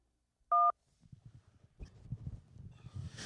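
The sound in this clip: A single telephone keypad tone from pressing 1 sounds as a short, steady two-pitch beep, followed after a brief pause by faint, irregular low rustling and bumping noises.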